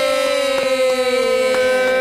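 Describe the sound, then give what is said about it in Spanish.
A siren wails with a loud, steady, harmonically rich tone whose pitch slides slightly downward across the whole stretch, with no voices over it. “Ah, sonaban sirenas. Sigue sonando la sirena, sigue sonando la sirena.”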